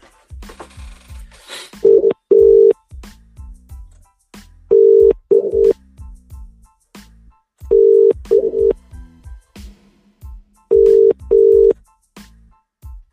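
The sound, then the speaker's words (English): A telephone call being dialed rings out in four evenly spaced pairs of steady mid-pitched beeps, with soft clicks and low thumps between them and no talk. “Sorry, I'm a bit slow dialing this one.”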